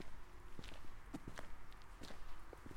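Faint footsteps on a walk through a small former Hanseatic town near the Rhine, a steady run of soft steps repeating throughout.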